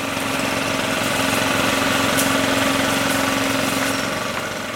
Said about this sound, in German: Mit Kettensägen zerlegen sie die Baumstämme.